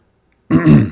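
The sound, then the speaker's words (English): A single throat clearing by someone reading a horoscope aloud: after a moment of silence comes one loud, rough, throaty burst, alone. “That was for Pisces, February 19th, and sorry for excusing my throat there.”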